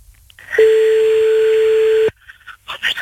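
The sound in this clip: A telephone tone sounds as a call is placed: one steady, sustained electronic tone of about one and a half seconds that stops abruptly, followed by faint scattered clicks and noises.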